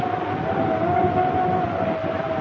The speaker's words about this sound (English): We find them before the door now with the Tibetan winds swirling around them.